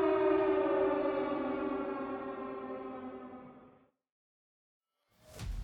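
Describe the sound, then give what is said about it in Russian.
Factory sirens wailing, a loud, rich sustained tone that sags slightly in pitch and slowly fades away, followed by silence and then a short noisy burst at the end. “Словно в подтверждение его слов, на заводе истошно завыли сирены.”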